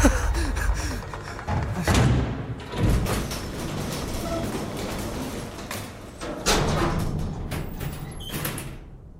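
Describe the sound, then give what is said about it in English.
An elevator arrives and its doors slide open: heavy thuds and rumbling mechanical noise, with a few louder bumps standing out over a dense, steady clatter. “The code actually worked! Just took a second for the elevator!”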